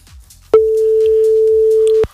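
Ringback tone of an unanswered telephone call: one long, steady mid-pitched tone lasting about a second and a half, heard alone with quiet background before and after.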